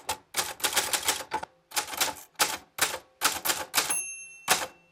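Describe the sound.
Rapid typing on an old typewriter once owned by a great-grandfather, copying text in uneven bursts of sharp, crisp key strikes separated by brief pauses. A single bell-like ring appears near the end, and no one speaks.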